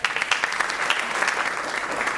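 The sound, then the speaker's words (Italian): Applause from a small group of about fifty people who gathered to follow Pope Francis's funeral together, at the end of the service: dense, steady clapping at moderate volume. “L'applauso del piccolo gruppo, così ha definito Alain de Rémy la cinquantina di persone che hanno scelto di seguire insieme il funerale di Papa Francesco al termine della funzione.”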